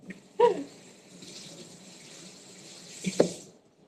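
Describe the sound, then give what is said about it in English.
Tap water runs over a cutting board being rinsed between batches of vegetables. It is a faint, even hiss, framed by a brief knock near the start and another near the end. “And even though I'm just making vegetables, I am rinsing the plate between all of them. Or the plates? That's not correct. I'm rinsing the cutting board.”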